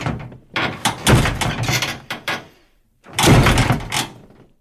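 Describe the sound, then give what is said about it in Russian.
A heavy iron bunker door crashes open in two loud bursts of grinding, clanking metallic noise, the first longer with several heavy knocks, then a second harsh scrape after a short pause. “Железная дверь бункера с грохотом распахнулась.”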